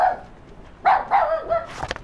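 A dog barking in a few short, fairly faint barks with a slightly whining edge, alone without talk.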